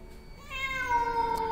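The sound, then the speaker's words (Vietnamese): A black cat meows outside in the rain, one long, loud, drawn-out harmonic cry that swells and holds steady to the end. “bỗng dưng có tiếng mèo kêu ngoao ngoao phát ra.”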